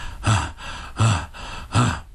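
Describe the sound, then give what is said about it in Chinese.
Out-of-breath panting imitated by a storyteller's voice: three loud, rough huffs of air evenly spaced about three-quarters of a second apart, with softer breathing in between. “有点累了，上气不接下气，呼呼带喘呢。”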